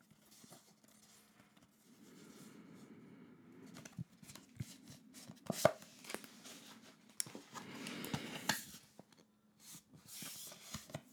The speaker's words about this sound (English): Okay. Now selecting a card.